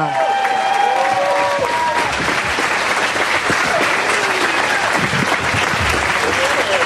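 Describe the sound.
Dense, loud audience applause welcoming four comedians to the stage, a steady wash of many hands clapping that holds without a break for the whole stretch.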